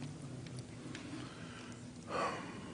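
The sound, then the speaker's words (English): A preacher catching his breath gives one brief, sharp intake of air over faint, steady background noise. “Sorry, just got to catch my breath.”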